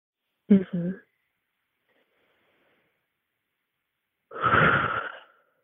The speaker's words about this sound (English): Can you take a deep breath for me and sort of describe what that feels like now that the air is clear?